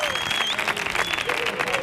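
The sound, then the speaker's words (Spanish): A studio audience at a live show applauds and cheers in a dense, steady wash of clapping, with shouting voices mixed in throughout. “al show del Comandante Lara, como ha hecho este maravilloso público que suena así de potente.”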